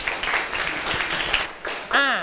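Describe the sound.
Students in a classroom clap for a classmate during a maths lesson, a steady patter of applause running throughout, with a voice over the clapping near the end.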